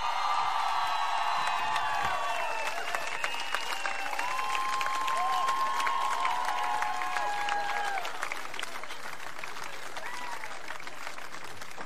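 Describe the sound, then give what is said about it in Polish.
Applause and cheering rise from a festival crowd greeting a performer on stage. Dense, continuous clapping is mixed with whistles and high shouts for about twelve seconds, easing slightly near the end. “Powitajcie go bardzo gorąco, mam nadzieję, że przed odbiornikami w całej Polsce również teraz będzie wiwat.”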